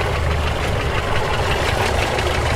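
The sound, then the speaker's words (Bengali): Steady idling engine of a police jeep at an old-style house's car porch in Kolkata, a low, continuous rumble with a faint knocking texture and no clear change in level throughout. “পুরনো আমলের বাড়ির গাড়ি বারান্দায় পুলিশের zip park করে প্রবীর, সুনীল আর শাজাহান গাড়ি থেকে নামছেন।”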